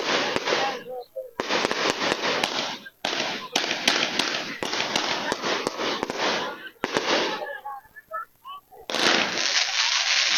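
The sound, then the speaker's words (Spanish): Colored fireworks burst at a night procession, with dense crackling rolling through many back-to-back bursts and sharp pops, the loud barrage broken by a few brief pauses. “Aquí está la quema de bombas de colores.”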